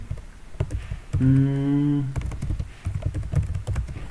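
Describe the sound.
Typing on a computer keyboard, heard as many quick, uneven clicks running through the whole stretch at moderate loudness, with a brief steady hum sounding in the middle.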